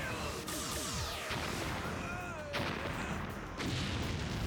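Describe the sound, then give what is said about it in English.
Sci-fi blaster weapon firing: a few sharp zapping bursts, each with sweeping falling-pitch whines, over a dense, continuous noisy clatter that stays fairly faint throughout. “Still do not like the blaster noise.”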